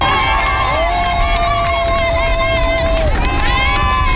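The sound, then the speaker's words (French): A roadside crowd cheers Tour de France riders passing through Sallanches, with loud, continuous shouting and cheering and no letup across the whole stretch. “Cela n'aura pas empêché le public, en tous les cas, d'encourager les coureurs comme il se doit sur le bord des routes. Et il y avait de l'ambiance, comme ici au passage des champions à Sallanches.”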